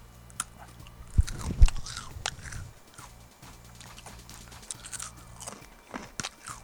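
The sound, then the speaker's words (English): Crunching bites into a stale triangular blueberry cracker: two sharp, loud crunches early on, followed by a stretch of quieter, irregular chewing. “So let me try one of the triangular crackers. It looks pretty good, actually. All right, I'm just going to eat one of them here”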